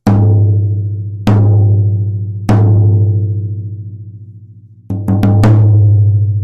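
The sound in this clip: Loud tom drum hits from a drum set with the bottom head tuned lower than the top: three evenly spaced booming strikes with long ringing decays, then a quick cluster of several hits.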